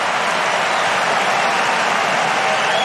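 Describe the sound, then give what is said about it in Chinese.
Home crowd cheering and applauding after a winning cross-court drop shot in a tennis match: a dense, steady roar of crowd noise that holds at an even loudness for about three seconds. “这个短球的制胜分啊，也引爆了现场观众的热情。”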